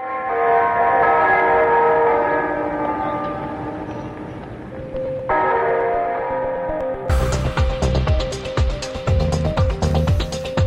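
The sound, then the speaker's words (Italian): Bells ringing, first as a sustained, layered tonal hum, then from about two-thirds of the way through as loud, bright, repeated clanging strikes that continue to the end. “Dai, campane.”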